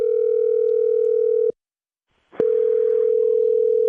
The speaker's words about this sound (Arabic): ترن ترن ترن ترن، الهاتف يرن.